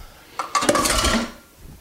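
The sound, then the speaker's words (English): Metal measuring spoons clink and rattle against each other while being picked out, a short bright cluster of jangling in the middle with no talking. “My measuring spoons. And half teaspoon. There's my teaspoon.”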